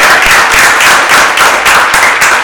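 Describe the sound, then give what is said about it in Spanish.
Studio applause: a steady, dense wash of clapping that runs loud and unbroken through the whole clip, with no voices over it. “Un aplauso a Claudio Castro.”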